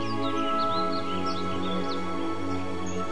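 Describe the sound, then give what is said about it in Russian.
Birds sing in varied voices, giving many quick, light chirps and warbling calls over a steady, sustained musical drone. “стрекочут кузнечики, на разные голоса поют птицы.”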